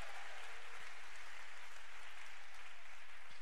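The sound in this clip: Applause from a theater audience at a live show: a dense, even wash of many hands clapping, fairly faint and steady throughout, with no voices.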